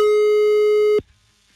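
A telephone busy signal sounds as one loud, steady, mid-pitched beep lasting about a second, then stops and leaves near-silence.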